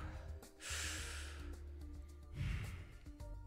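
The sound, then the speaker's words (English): A deep breath, heard as two soft, airy rushes of breath: a longer one followed after a pause by a shorter one, faint and breathy with no speech. “And I take a deep breath”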